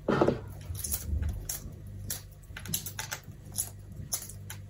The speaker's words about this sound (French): On va les sortir, on va les passer juste hyper rapidement sous l'eau froide pour pouvoir les toucher sans brûler. Et on va les écaler grossièrement.